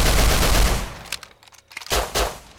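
Gunfire from guns in a video game: a dense burst of rapid automatic shots for about a second, then a brief lull and a few scattered shots, loud with no talk.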